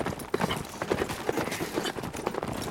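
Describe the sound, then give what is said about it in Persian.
A horse's hooves clip-clop in a fast, regular rhythm of many hoofbeats at a moderate level. No talking is heard. “نباید از اسبت بیای پایین. سوار شو!”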